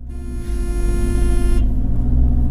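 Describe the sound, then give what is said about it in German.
A jeep drives along a bypass road heading inland from Bujumbura, Burundi. Its engine gives a steady, loud, low rumble with a droning tonal hum that grows slightly louder, and no voices are heard. “Wir fahren jetzt in Bujumbura, der Hauptstadt von Burundi, ins Landesinnere, auf dieser sehr schönen Umfahrungsstraße, die wir da erbaut haben. Neben mir im Jeep sitzt ein Steirer.”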